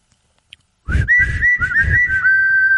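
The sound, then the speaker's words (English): A person whistles: a quick run of several short, clear notes at a fairly steady pitch, ending in a longer held note. The whistling is loud and stands alone with no talk. “I can't whistle. Did you hear that? Hold on. What's your whistle?”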